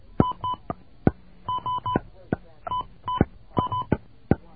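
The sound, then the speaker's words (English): Touch-tone dialing of a telephone number: many short, steady DTMF beeps in quick clusters, separated by sharp clicks, with a repeating rhythm of button presses throughout. “Okay. We're going to dial a number here.”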